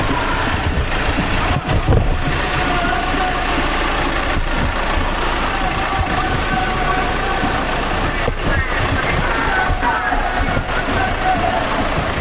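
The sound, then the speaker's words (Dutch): The diesel engine of a police car idles with a steady, even rumble that stays loud and continuous throughout, with no clear breaks. “Dit is een motor van de politieauto.”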